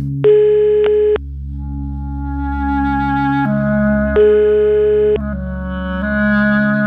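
Electronic telephone tones sound while a call is placed: a loud, sustained tone that shifts in pitch several times, heard alone without talk.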